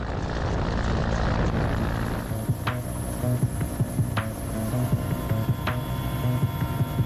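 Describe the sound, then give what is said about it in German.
A helicopter hovering because it cannot land during a special-unit operation: a loud, continuous drone of rotor and engine that holds steady throughout, with no voices. “Es gibt Situationen, in denen ein Hubschrauber aus dem einen oder anderen Grund nicht landen kann.”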